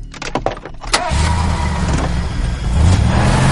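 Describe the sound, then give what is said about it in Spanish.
A car engine starts after a few sharp clicks and knocks, then settles into a steady, loud low rumble that swells slightly toward the end. “Ray, nervioso, arranca su coche”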